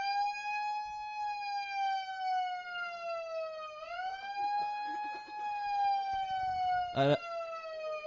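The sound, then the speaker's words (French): A siren wails in a steady, harmonically rich tone that drifts slowly downward, dips briefly midway and then climbs again. A short sharp burst cuts in near the end. “Alors, soit c'est la sirène qui nous annonce la guerre mondiale, soit c'est une animation imprévue”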